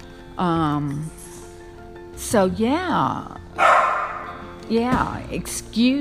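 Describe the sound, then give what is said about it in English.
A pet dog barking at home, a few spaced bursts of loud, drawn-out barks and whiny yips with wavering pitch. “My dog is barking.”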